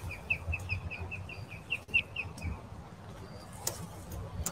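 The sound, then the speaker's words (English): Birds chirping outdoors: a rapid run of many short, high, evenly spaced chirps over the first half, then a few scattered calls over low background noise. “I hear the birds chirp.”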